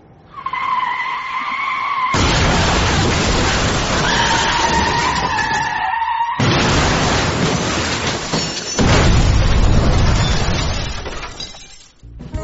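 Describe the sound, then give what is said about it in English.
Big rig truck crashing into standstill traffic: a high tonal screech opens, then a loud burst of crunching, shattering impact noise, a second heavy hit after a short dip, and a long rough tail of grinding debris. “did I crash my big rig? Oh, yeah, definitely. You plowed into standstill traffic”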